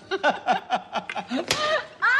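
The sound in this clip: A single sharp slap in a radio comedy sketch, staged as delivered by François Bayrou. It cracks out amid a run of short, laugh-like vocal bursts, and more voice follows right after.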